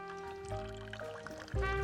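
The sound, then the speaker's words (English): Liquid pours into a martini glass as a mixed cocktail is served: a steady splashing stream that eases briefly and then surges louder near the end, over a sustained tonal background. “Pours it into a martini glass.”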